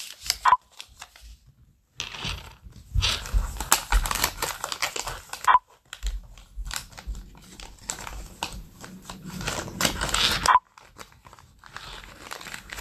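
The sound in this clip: Paper money crinkles and rustles as bills are picked up, handled and folded, in several bursts of crisp crackling separated by short quiet gaps.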